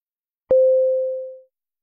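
Telephone ringing for an incoming call: one electronic tone at a steady mid pitch, loud at the start and fading away over about a second, with silence before and after.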